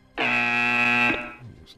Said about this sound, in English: Most delayed buzzer ever.